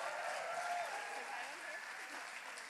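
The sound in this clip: A church audience applauds warmly to welcome a speaker, a dense, continuous wash of clapping that holds at an even level and eases slightly toward the end.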